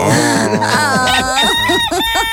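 A rooster crows in a few loud, drawn-out, strongly harmonic calls that waver and curve in pitch, filling the short clip without pause.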